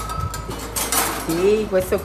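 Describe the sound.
Kitchen utensils clink and clatter as the owner and head chef handles her cooking tools in a restaurant kitchen in Tarquinia, north of Rome. Metal and dishware knock a few times, and a voice is briefly heard toward the end.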